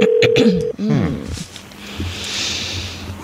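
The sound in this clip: Electronic touch-tone beeps from a telephone as a number is dialed, with a short run of steady tones at the start, then a low, quiet line hum.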